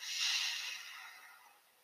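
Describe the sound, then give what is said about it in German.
A long exhale through pressed lips during a guided breathing exercise: a soft, airy hiss that swells quickly, then thins and fades gradually over nearly two seconds, with no other sound. “ein langer Atemzug durch die zusammengepressten Lippen aus”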